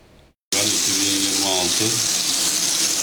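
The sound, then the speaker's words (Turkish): Muddy water runs steadily from a household tap in a bathroom or kitchen sink, a loud continuous splashing rush that starts abruptly after a brief quiet moment, with faint low tonal sounds beneath. “İstanbul'un Anadolu yakasında musluklardan adeta çamur akıyor.”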